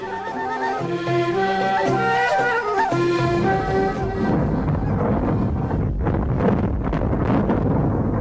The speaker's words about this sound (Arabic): اللي سمعناه دلوقتي ده صوت تفجير الديناميت داخل النفق.